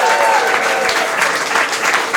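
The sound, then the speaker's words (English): Audience applause for an illustrator at the close of a live show: loud, continuous clapping with an even, dense texture and no pauses across the whole stretch. “A big round of applause for Andrew Keppel, our illustrator.”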